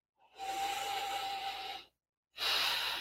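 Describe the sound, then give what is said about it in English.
A deep breath during a guided self-acceptance exercise: one long, airy breath lasting about a second and a half, a short silence, then a second breath begins. No talking over it. “Big, deep breath.”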